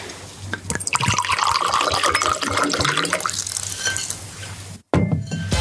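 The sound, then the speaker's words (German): Wine is poured into glasses, a steady gurgling splash of liquid that runs for several seconds. It stops briefly, then a short final pour follows. “Also ich schenke uns allen nochmal nach.”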